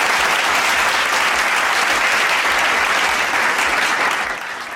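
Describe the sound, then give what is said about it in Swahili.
An audience gives a loud, dense round of applause before a contest's winners are announced. The clapping holds steady and alone for several seconds, then thins and fades slightly at the end. “kwanza makofi kabla sijamtaja. Makofi.”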